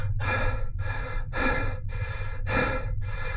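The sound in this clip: Breathing inside a space suit helmet: a series of airy breaths in and out at an even rhythm over a low steady hum, with no voices.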